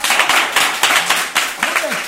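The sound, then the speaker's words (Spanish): Applause from a studio audience: a short burst of clapping with a voice speaking over it. “Otro aplauso. Venga, para otro aplauso.”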